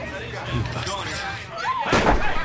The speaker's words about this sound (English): Fayed shoots at Gridenko, who manages to escape. He then shoots one of the drinkers in the bar before being set upon.